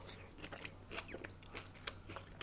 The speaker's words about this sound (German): Und jetzt beiße ich einmal das erste Mal rein.